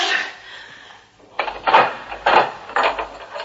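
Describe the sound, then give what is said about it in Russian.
A door is shut and locked: a run of several wooden knocks, clunks and rattles from the door and lock. They follow a brief stretch of quieter sound. “Вот так я заперла дверь.”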